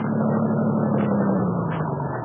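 A car engine being started and held running as a steady low droning rumble, its pitch sagging slightly over the stretch, with no voices.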